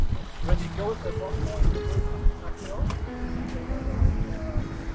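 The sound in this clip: Strong wind buffets the microphone beside water where a sailboat is racing along, a rough, steady low rumble with gusty swells, while a voice talks faintly underneath.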